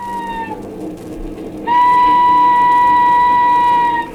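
A train whistle sounds as a train leaves from London. A short blast fades out, then after a pause a long, loud, steady whistle holds at one pitch for over two seconds before stopping, over a low background rumble.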